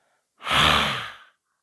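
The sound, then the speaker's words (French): A forceful exhale with the tongue out, shaped into a long open "ah": one loud, breathy burst that lasts about a second and trails off, heard alone. “Et on y va pour l'expiration en tirant la langue, en regardant entre les sourcils et en faisant un grand A.”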